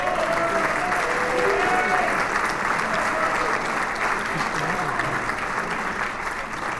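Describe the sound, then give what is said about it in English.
Dense audience applause welcomes a performer from Indianapolis, Indiana, onto the stage. The clapping is loud and steady from start to finish, with a few crowd voices mixed in. “Great big hand for Jimmy Vaughn. Make him welcome.”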